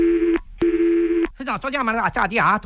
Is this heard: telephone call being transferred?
yes